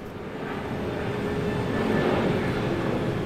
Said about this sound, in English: So it's currently 6 a.m. in the morning, and I am in London Stansted Airport, waiting for my flight to Sweden